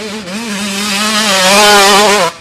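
Motorbike engine revving in a steady, buzzing drone that wavers slightly in pitch and swells a little in loudness for just over two seconds before cutting off abruptly.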